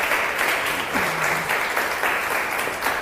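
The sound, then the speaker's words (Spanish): An audience in a theatre applauds with steady, dense clapping that stays loud and even from start to end. “bienvenidos a este maravilloso teatro. Un aplauso, por favor. Gracias, gracias.”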